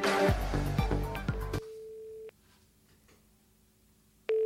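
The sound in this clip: A telephone call tone sounds while a number is dialed. Loud music plays first, then a steady tone holds briefly and cuts off. After about two seconds of near silence, the same tone returns.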